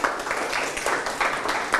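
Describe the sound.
A group of people clap their hands to cheer a team's score in a group game. The clapping comes in a quick, rhythmic pattern of repeated bursts, moderately loud, with no talk over it.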